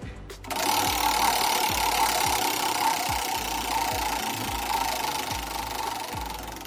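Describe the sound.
A prize wheel spinning, its pointer ticking in a long run of sharp clicks that start quick and gradually space out as the wheel slows, over a steady mid-pitched hum.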